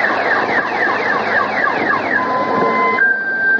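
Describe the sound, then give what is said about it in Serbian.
A car alarm sounds from an overturned car sunk in mud on a flooded street, with loud repeating chirping tones that give way to a steady high whistle, continuous and with no voices. “vidimo izvrnute automobile potonule u blato. Iz jednog od njih još se čuje alarm.”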